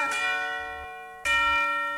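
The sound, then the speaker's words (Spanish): Doorbell chime ringing at a radio studio booth door: two bright bell strikes about a second apart, each ringing on with a sustained tone that slowly fades. No talk is heard. “¡Tengo visita! ¡Ya me están timbrando la puerta!”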